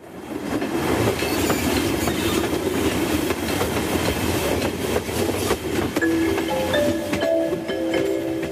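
A Rodalies commuter train bound for Manresa runs along the track with a continuous rumble and clickety-clack of the wheels. High, steady squealing tones rise over the noise near the end.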